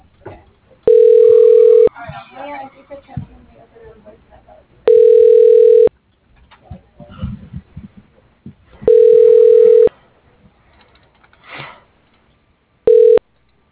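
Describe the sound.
Telephone ringback tone as a call is put through to an extension at a heart clinic: four steady, mid-pitched tones of about a second each, spaced roughly four seconds apart, the last one cut short, with faint sounds between.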